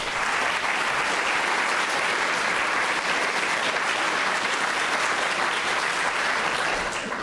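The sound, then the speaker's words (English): Audience applause welcoming the speakers at a museum talk, a steady, dense wash of clapping that holds at an even level throughout. “please join me in giving them a warm welcome”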